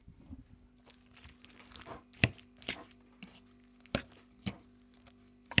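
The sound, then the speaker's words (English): Beans and coleslaw being mixed together with a utensil: faint wet squishes and several sharper scrapes and clicks at irregular intervals, with no talk. “I am now mixing up the beans and the coleslaw.”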